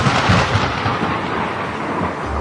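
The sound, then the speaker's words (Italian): Thunder from a lightning bolt in a storm at sea, a loud, sustained, deep rumble that rolls on without a break. “La tempesta cattura la nave come un giocattolo, strappando le veli e scagliandola di nuovo verso lo stretto. I marinai si affannano ai remi ma non hanno scampo, perché Zeus stesso gli scaglia contro il suo fulmine,”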